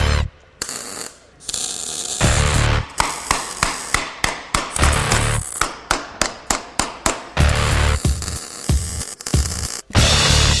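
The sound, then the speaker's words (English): Crackling bursts of welding as exhaust pipes are joined and blended into one piece, many short sizzling runs broken by brief gaps in a quick, uneven rhythm, loud and alone. “once we finally decided on the position of the pipes, the next tricky step in the process is welding and blending them together so they look and feel like one piece.”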